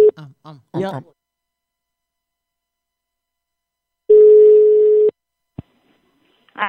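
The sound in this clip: A telephone tone on a call being placed: one steady, mid-pitched beep lasting about a second, after brief talk and followed by a sharp click, with a voice starting again at the end.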